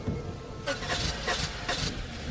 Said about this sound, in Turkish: Bu ses nereden geliyor? Motordan geliyor